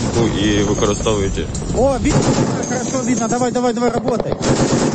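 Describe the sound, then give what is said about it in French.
Sustained machine gun fire at a drone at night, a dense, continuous loud rattle with voices mixed in over it. “Sur ces enregistrements réalisés par les artilleurs, on aperçoit l'unité en action. Les balles fendent la nuit par leur lumière orange vers le drone en mouvement.”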